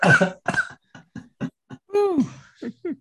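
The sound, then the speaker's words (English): A voice catching in the throat with coughing: many short, rough, choked vocal bursts in quick succession, then a longer strained, pitched sound and a few final catches, fairly loud and with no words. “My voice caught in my throat for a second.”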